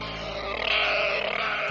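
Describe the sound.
A human voice imitates a pig's grunt: one sustained, low, rasping snort lasting under two seconds, heard alone without other talk.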